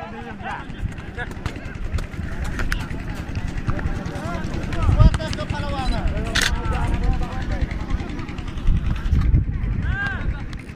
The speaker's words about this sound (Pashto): دوی د یاد لوبغالي په یو څنډه کې په خوانۍ د ټک ټک دا ماشین چلان کړي او د ځانونو لپاره د لوبغالي په یو کونج کې رڼا برابره کړي